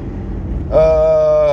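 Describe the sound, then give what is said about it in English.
A car engine in second gear makes an odd noise: a low rumble turns partway through into a steady, loud, high tonal whine that holds to the end. “Now even second gear sounds kind of weird too.”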